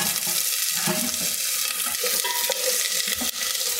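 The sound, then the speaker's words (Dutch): Onions sizzle in very hot oil, a steady bright hiss that runs the whole time, with soft stirring scrapes and a few small clicks mixed in. “En dan laat ik even de olie heet worden. Om er vervolgens, als het heet is, de uitjes bij te doen. Hoppakee. Heel heet. Uitjes gaan erbij.”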